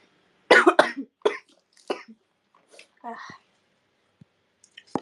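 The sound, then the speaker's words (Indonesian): Coughing from a person who is ill: a harsh burst of several coughs opens, followed by a few softer, shorter coughs and throaty sounds trailing off into quiet. “karena batuk mulu ya guys dan aku sakit”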